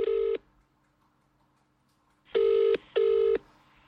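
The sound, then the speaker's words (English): A telephone ringback tone sounds while a call is placed to a registry office. One short, steady buzzing burst is followed by a long pause, then two quick bursts in a row, all at the same low pitch. “we should phone the registry office right now on the podcast and try and book it in.”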